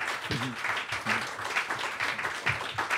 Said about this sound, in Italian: Sì, facciamo un applauso